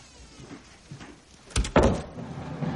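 A door closes with a couple of sharp thuds and a short rattle partway through, set against faint, low background noise before and after.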